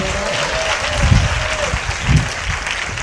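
Dense, steady applause from a church audience clapping to praise the Lord during a Telugu sermon on water turned into wine, a continuous wash of hand claps with a couple of heavier low swells.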